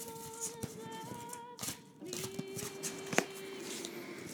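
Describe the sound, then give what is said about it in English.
A card being drawn from a deck to pick a guiding card: soft papery rustles and slides of handled cards, faint overall, with one sharper snap near the end. “Okay, selecting a card from the deck.”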